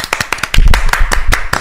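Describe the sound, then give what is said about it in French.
Hands clapping in applause, sharp distinct claps at first that thicken into quicker, overlapping clapping in the middle before loosening again, fairly loud and close. “Allez, on l'applaudit d'abord.”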